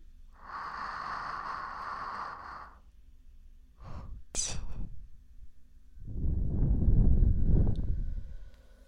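Deep, airy breaths taken during a relaxation breathing exercise at a relaxation venue: three separate drawn breaths, each a soft rushing of air, the last one the longest and fullest.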